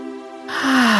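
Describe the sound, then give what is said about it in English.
A deep breath drawn in during a guided grounding meditation: a breathy rush of air begins about halfway through and swells louder over a steady sustained musical tone. “And we're going to take one deep grounding breath in.”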